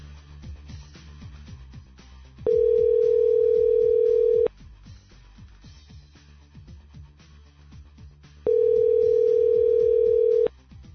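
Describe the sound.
Telephone ring tone on a call: two long, steady tone bursts, each lasting about two seconds, separated by a long pause, over faint background noise.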